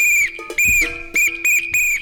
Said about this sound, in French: Il y a aussi un sifflet, c'est l'apito.